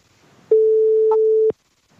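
A telephone busy tone on an unanswered call, heard as a single steady, even-pitched beep of about one second, followed by silence.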